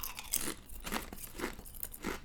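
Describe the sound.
Crunchy chewing of a savory snack, with several loud, crisp crunch bursts at a steady chewing rhythm and no talking.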